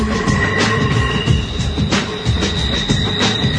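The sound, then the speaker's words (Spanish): A passing train rumbles on its rails in a steady, continuous roar, with faint sustained high squealing tones over the low wheel noise and no voices. “ahí escucho el tren.”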